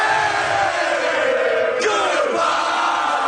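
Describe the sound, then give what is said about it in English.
Habs fans cheering outside the Buffalo arena after a Canada hockey win, a loud, sustained crowd roar full of yells and whoops, with one shout sliding downward in pitch partway through. “Outside the Buffalo Arena, Habs fans cheered madly.”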